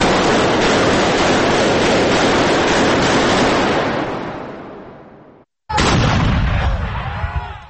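Recorded gunfire played through a small MP3 player loudspeaker: a long, loud, harsh roar fades out, then a brief silence and another loud, distorted burst.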